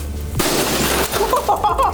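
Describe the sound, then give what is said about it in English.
Glass being struck and smashing: a sudden loud, bright crash bursts in and keeps going as a harsh shattering spray. Thin ringing tinkles of shards rise near the end. “That was glass.”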